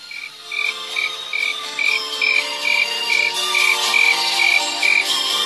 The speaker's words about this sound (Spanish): Pero vos, escucha ese grillo.